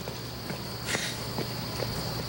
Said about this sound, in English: At a burger joint, Snooky trips down the stairs on his way out.